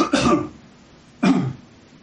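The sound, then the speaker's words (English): A person coughs twice, each a short, rough, throaty burst, with about a second of quiet between them and no talking. “Just one second, I want to cough.”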